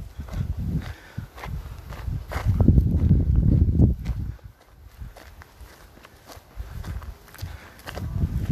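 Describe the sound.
Footsteps walking up into the woods, many dull crunching steps in an uneven rhythm that grow heavier and denser midway, then lighten again.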